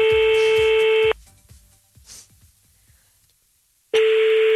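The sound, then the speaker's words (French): A telephone call being placed to a random number in France: a steady electronic line tone sounds for about a second, cuts off into a quiet gap of nearly three seconds, then starts again. “Ok, alors bouge pas, petite femme. On appelle au hasard en France.”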